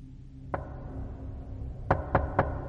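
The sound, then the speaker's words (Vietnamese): Knocking on the door of a security guard's room: one sharp knock, a pause, then three quick knocks in an even rhythm over a low, steady background hum. “thì cánh cửa phòng bảo vệ vang lên tiếng gõ cửa”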